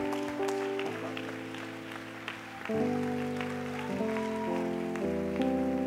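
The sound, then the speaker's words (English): A church audience applauds in a soft, rain-like patter while sustained keyboard chords play underneath and change several times. “Will you put your hands together and welcome to this pulpit, Evangelist Jackson.”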